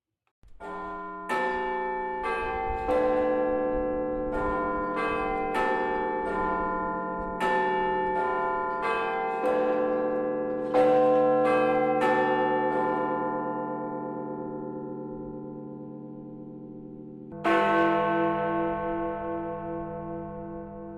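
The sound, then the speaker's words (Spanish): Church bells in England ring out in a long sequence of many clear, resonant strikes at varying pitches, each tone lingering and decaying. The peals thin out before a pause and one last loud strike. “escuchar los sonidos de las campanas.”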